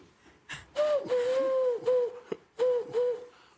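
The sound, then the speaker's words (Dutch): Pigeon call: a few low, hollow hooting coos, the first long and steady, the later ones shorter and spaced apart, with breathy noise around them. “is dat een duif, hè? Of niet? Een duif, ja.”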